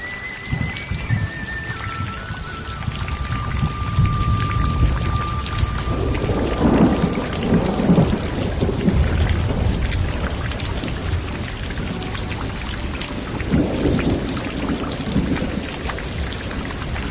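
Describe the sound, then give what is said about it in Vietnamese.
Steady rain patters on a bamboo screen in a quiet setting, a dense, even hiss that runs throughout, with low thunder-like rumbles swelling twice beneath it. “Bốn phía rất yên tĩnh, nghe giọt mưa đánh vào trên màn trúc”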